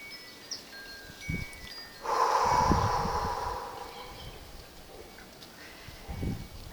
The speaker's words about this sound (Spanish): Exhalamos por la boca.